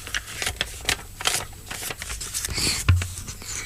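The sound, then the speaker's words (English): Licking an envelope to seal it: a run of many short, wet clicks and smacks mixed with soft paper rustling, irregular in rhythm and moderately loud, with no voices. “Good licking sound. I'm actually revolted by that.”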